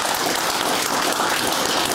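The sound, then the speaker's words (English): A studio audience breaks into a big round of applause to welcome a guest: a thick, continuous wash of clapping that holds steady without pause. “Big round of applause, please.”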